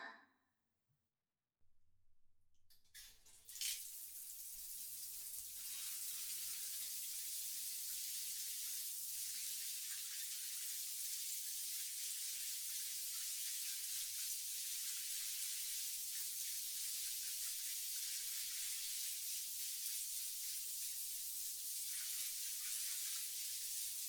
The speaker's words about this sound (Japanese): ああ、体洗ってあげますね。遠慮しないでください。ほら、背中向けて流しますよ。